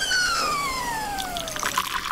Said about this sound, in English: Just pour it into the cup there.